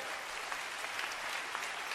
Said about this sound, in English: Somebody should clap your hands for the Lord.